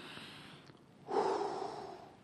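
One long breath is pushed out, demonstrating breath leaving the body. A broad, breathy rush of air starts abruptly partway through, stays loud and steady, then eases slightly, after a quieter hiss.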